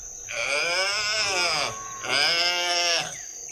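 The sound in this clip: A calf about to suckle bleats twice. Both calls are long, loud and wavering, with a strong harmonic tone and a short pause between them.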